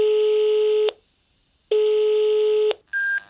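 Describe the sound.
An unanswered telephone call rings out as two steady, buzzy ringback tones about a second each, separated by a pause, followed by a short, higher-pitched tone. No voices are heard.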